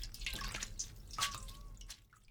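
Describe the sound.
Faint dripping and trickling as water is squeezed by hand out of boiled mustard greens that were cooled in cold water. A few soft, splashy drips sit over low background hiss.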